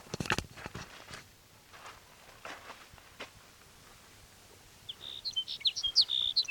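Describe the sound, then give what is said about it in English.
A sage sparrow sings in the last seconds: a short, high, thin phrase of quick tinkling notes, faint but clear, after soft footsteps and rustling scuffs with no talk. “There's sage sparrow number one.”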